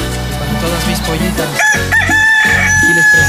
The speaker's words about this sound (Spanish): ¡Véngase para acá, mi gallito! Salud a todo San Cristóbal, a todo Chiapas, a México y el mundo con su canto.